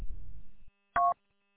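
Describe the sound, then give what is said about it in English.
A single short electronic phone tone marks an incoming call. It is clear and steady and follows a faint, low rumble that stops just before it. “I got a phone call coming in.”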